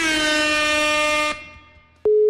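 A telephone ringback tone sounds on an outgoing call that goes unanswered. A sustained, buzzy tone stops, then after a short gap a clean, steady pure tone starts and runs to the end.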